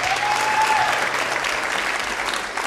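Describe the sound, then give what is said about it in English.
Audience applause welcoming a singer to the Red Barn stage: dense, steady clapping from a crowd fills the whole stretch, easing only slightly at the end. “Tonight, however, we are so glad to welcome Lissy Taylor back to America and to the Red Barn stage. Let's give it up for Lissy Taylor.”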